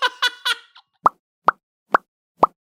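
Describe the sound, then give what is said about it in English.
A voice imitates a cartoon bubble pop with four sharp, evenly spaced mouth pops, each short and hollow. They follow a few brief voiced sounds at the start. “there's so much sound design done in animation that just like anytime there's a bubble pop, it's always... There's like no other sound for it.”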